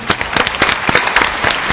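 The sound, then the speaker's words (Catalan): Audience applause: many overlapping claps merge into a dense, loud, steady patter for under two seconds. “Gràcies, senyores i senyors, si us plau, un aplaudiment, aquí.”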